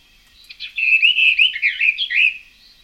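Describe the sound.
Bird song played from a record, the bird's simple French regional song: a high, bright run of quick chirps and whistled notes lasting about two seconds, heard alone without talk.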